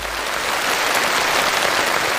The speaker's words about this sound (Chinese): 哇，这掌声是立体声环绕的，比我的采样精度还饱满。